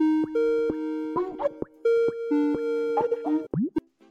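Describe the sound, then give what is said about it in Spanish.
An electronic ringtone signals an incoming telephone call, a melody of clear beeping tones stepping between a few pitches, with soft plopping clicks between notes and a quick sliding blip near the end. “la semana pasada recibí esta llamada.”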